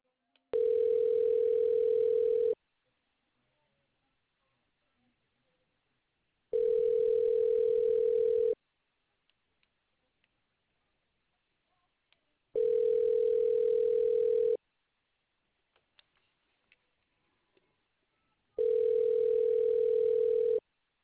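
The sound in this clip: A telephone ringback tone plays while a call is transferred: four steady single-pitch tones, each about two seconds long, separated by evenly spaced silent gaps of roughly four seconds.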